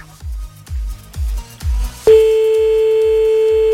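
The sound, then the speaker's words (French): A telephone call being placed: a steady, loud dial tone switches on abruptly and holds unbroken, while a regular low thumping pulse continues beneath it from start to finish. “Allez, on fait un petit appel là maintenant, c'est parti.”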